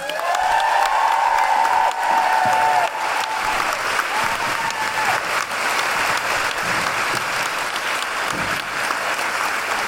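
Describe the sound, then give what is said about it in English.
An audience claps in loud, sustained applause. A high hooting cheer rings over the clapping in the first few seconds, then the applause carries on steadily. “Could you please put your hands together and make wonderful new hooing noises for Jane York, accompanied by Madalena from Big Feminist Sing!”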